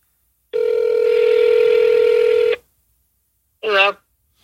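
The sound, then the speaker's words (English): An outgoing call on a phone plays a single steady ringback tone, about two seconds long and fairly loud. After a short silence comes a brief warbling burst. “Here, I'll call him from my phone. Okay. Here. I got to get down to the bottom of this. All right, let's see here. Let's call him here.”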